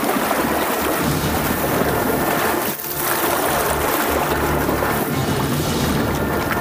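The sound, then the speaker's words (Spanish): Roaring rush of water from a terrible whirlpool surging up from deep in the ground, sinking the village of Valverde and flooding its valley into a lake: a loud, steady churning roar throughout, with one brief dip partway through. “desde lo lejos pudieron divisar cómo surgía del fondo de la tierra un terrible torbellino de agua que hundió al pueblo de Valverde”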